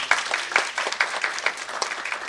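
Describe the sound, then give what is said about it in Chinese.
Audience applause welcoming a guest lecturer at a Unity 4.3 training course: a brief, even patter of many hands clapping at a moderate level, with no voices. “请大家掌声欢迎他”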